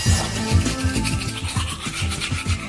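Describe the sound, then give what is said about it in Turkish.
Toothbrush scrubbing teeth, a quick rhythmic rasping with bristles rubbing back and forth in many short, even strokes at a moderate level, with no voices. “15. yüzyılda keşfedilen bu nesne diş fırçası.”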